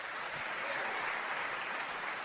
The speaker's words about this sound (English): I think the applause meter jumped really high on that one.